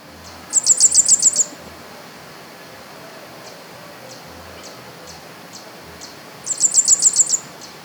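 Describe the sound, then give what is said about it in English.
Rusty flowerpiercer calls come in two bursts of rapid, high, thin chips, each a quick run of several notes. Several seconds of quiet hiss with faint scattered notes separate the bursts. “Rusty Flower Piercer, 1.”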